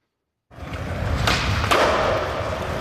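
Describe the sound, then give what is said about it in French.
Skateboard wheels rolling: after half a second of silence a steady gritty rumble starts and continues, with a couple of sharp clacks partway through. “C'était un bruit de skateboard.”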